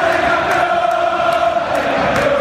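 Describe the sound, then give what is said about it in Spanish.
Sustained crowd noise with cheering rises from an audience applauding a dance academy's young performers, a dense, steady roar that holds at the same loudness throughout, with a few held tonal notes running through it. “Ahí está el aplauso para ustedes.”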